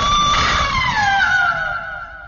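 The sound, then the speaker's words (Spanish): A woman lets out a strange, chilling scream as she is speared in the chest. The high, sustained wail slowly slides downward in pitch and fades toward the end. “Un grito extraño y escalofriante brotó de los labios de Stabai, que retrocedió con la lanza clavada en el pecho.”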